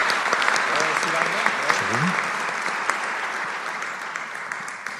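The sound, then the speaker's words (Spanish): Sustained audience applause at a university gathering, a steady crackling wash of many hands clapping with a voice briefly audible underneath. “Y un fuerte aplauso para Javier y que estemos al pendiente de eso, ¿no?”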